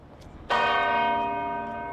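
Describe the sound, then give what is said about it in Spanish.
A large cathedral church bell in Madrid rings at nine in the morning. It gives one loud metallic strike, then a long, sustained ringing decay full of shimmering overtones, with no voices. “volvían a tañer las campanas de las iglesias de la Comunidad de Madrid. Así sonaban las de la Catedral de la Almudena.”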